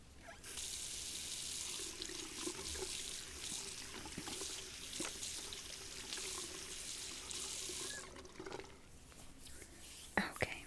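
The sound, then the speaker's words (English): Tap water runs into a sink to wet hair during a hair wash, a steady, full rushing splash that lasts about eight seconds before easing off, followed by a few faint clicks. “Let's get it all in the sink. Okay, now I'm just gonna get it wet.”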